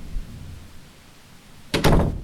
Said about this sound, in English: I deadbolted the door behind her and pulled the shades shut.